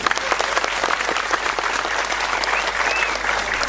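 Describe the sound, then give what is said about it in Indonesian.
Audience applause, a short, dense burst of many people clapping together, steady and fairly loud throughout. “Tepuk tangan ya Jumpa PLT.”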